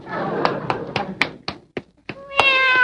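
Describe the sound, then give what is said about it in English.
A cat gives a short, clear meow at the end, after a quick run of sharp rhythmic taps. The meow is bright and harmonic and stands out against the dry knocks before it. “Oh, look, there's that little pussycat again.”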